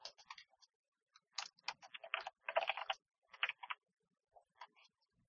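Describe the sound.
Typing on a computer keyboard: irregular bursts of quick, crisp key clicks separated by short pauses, with a final scattering of taps near the end.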